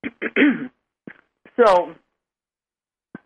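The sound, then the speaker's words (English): A speaker clears a tickle from the throat, a few short raspy bursts in quick succession, then a longer voiced rasp and one faint final burst after a pause. “Just a minute, I got a trickle in my throat.”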